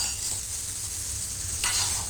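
Food sizzling and being stirred in a pan during home cooking, a steady frying hiss that grows slightly louder near the end, with no voices.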